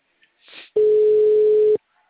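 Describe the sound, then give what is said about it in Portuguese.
Telephone ringing tone from a call placed through an auto-dialer: a single steady mid-pitched tone lasting about a second, preceded by a soft brief rustle. “Vou ligar pela discadora pra ele.”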